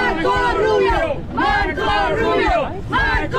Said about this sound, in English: Some Cuban Americans in Miami cheered him.